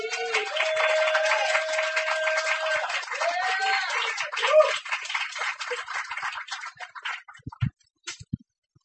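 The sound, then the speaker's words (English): Applause from an audience at a poetry reading for a performer leaving the stage, a dense steady patter of clapping that tapers off and dies away near the end. “That was Darren, ladies and gentlemen. Give him a hand.”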